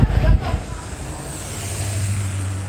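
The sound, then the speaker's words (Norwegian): Road traffic on a fjord road where trucks and motorhomes queue and get stuck, heard as a steady low engine rumble that continues throughout, with a louder burst of noise at the very start. “Dette er en av de mange mobilvideoene som deles i Facebook-gruppa 'Verre enn kolonnekjøring', der innbyggere som bor i fjorden, deler bilder og videoer av kø, trailere og bobiler som kjører seg fast.”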